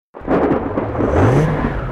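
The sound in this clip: A car engine revving hard while the vehicle is stuck and sinking into the ground. A loud, steady roar starts abruptly, and a whining tone climbs in pitch partway through.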